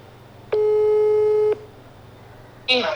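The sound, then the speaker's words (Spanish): A telephone ringback tone sounds while a call is placed: one steady, mid-pitched beep lasting about a second over a faint low hum. A short noisy burst follows near the end. “pues voy a hacer otra llamada que tenía pendiente, ¿vale? Que no tiene nada que ver con esto de la radio, pero voy a hacer otra llamada. Es una llamada como de urgencia.”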